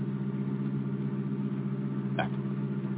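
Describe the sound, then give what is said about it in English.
Steady low engine hum of a car driving slowly through the streets of Aurora, an even, unbroken drone with one brief click partway through. “we drove through Aurora slowly, looking for one street, one house.”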